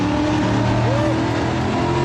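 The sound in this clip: An American sports car's engine roars through a tunnel, loud and sustained, with deep rumbling harmonics and a brief whining tone rising and falling in the middle.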